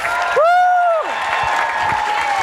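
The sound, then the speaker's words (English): Audience applause and cheering as a guest is welcomed onto the stage, a steady wash of clapping topped by a loud held whoop that slides down in pitch as it ends. “So I'm going to ask if you will stand to your feet and put your hands together and welcome to the platform the incredible Mr. Chris Tomlin.”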